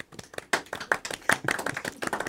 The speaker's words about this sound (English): we will now, in accordance with jazz policy, give you a golf clap before you begin. Okay? Join me, everyone.